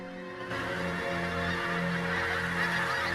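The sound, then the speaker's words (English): Honking of a flock of birds flying over the treetops in the grounds of a grand house, with repeated goose-like calls rising over a steady rushing hiss at an even, moderate loudness throughout. “Flocks of birds soar over the treetops in the grounds of Devonshire House.”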